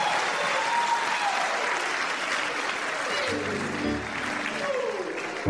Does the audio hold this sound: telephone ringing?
no